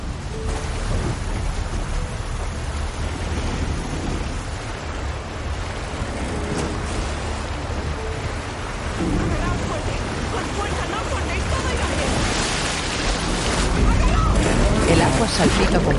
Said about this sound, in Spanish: La embarcación rebota con fuerza sobre los rápidos.